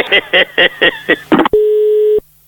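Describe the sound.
A telephone rings as a neighbour calls, a quick regular run of short bright chirping pulses followed by one sustained steady tone that stops abruptly.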